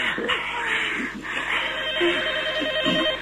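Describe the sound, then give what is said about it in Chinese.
A telephone rings during a tense romantic scene in a radio drama, sounding as a loud, steady ringing tone that continues through the whole clip. “这是我的电话，讨厌。”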